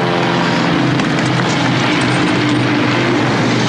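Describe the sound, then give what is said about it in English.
Aircraft noise at an airport: a loud, steady engine drone with low humming tones underneath, unbroken from start to finish and with no talk. “So here we go. We're at the airport. We're on our way.”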